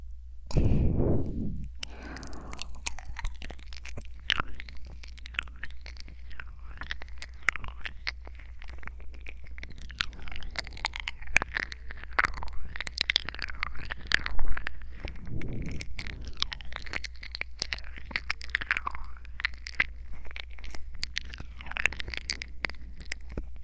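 Wet mouth sounds imitate nibbling and eating someone's ear: a steady stream of soft smacks, lip clicks and moist chewing noises with no words, after a brief low thump at the start.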